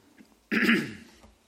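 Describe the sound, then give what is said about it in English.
A single short, forceful throat clearing from a person with asthma after using a Ventolin inhaler. It is one rough burst that fades quickly, with no talk around it. “Sorry, my asthma's kicked in and the Ventolin's starting to do its thing with the throat.”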